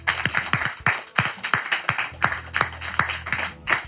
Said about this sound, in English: Let's give Aaron a hand, you guys, for all of his amazing work.